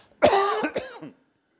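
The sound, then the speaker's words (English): A person coughs and clears their throat from a tickle: a single harsh cough runs into a short series of raspy throat-clearing bursts, all over in about a second, with no talk. “Excuse me, I have a tickle in my throat. I'm going to turn this off.”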